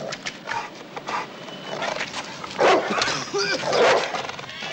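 A dog barks near the icy front steps of a building entrance, giving a few sharp barks and short yelps among rustling background noise.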